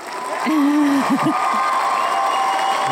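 A studio audience cheers and applauds: loud, steady crowd noise with clapping, and a bright voiced whoop rising and wavering near the start before the cheering carries on evenly.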